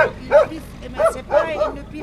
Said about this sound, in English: As soon as they hear the sound of her engine, stray dogs and cats come running after her.